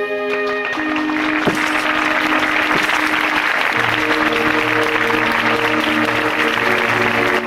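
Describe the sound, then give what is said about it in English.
Applause at an FBI Academy graduation ceremony in a hall, a steady continuous wash of clapping from many people, with sustained tones running beneath it. “The FBI Academy graduation ceremony. Clarice M. Starling. Congratulations.”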